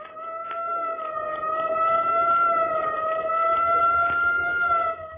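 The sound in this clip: An emergency-vehicle siren, taken at first for a police siren, sounds as a steady, loud, sustained tone with strong harmonics. It holds an even pitch without a clear wail and plays alone, without voices.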